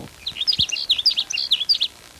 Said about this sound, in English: There's a sage sparrow that's singing near where the blackbird sparrow is.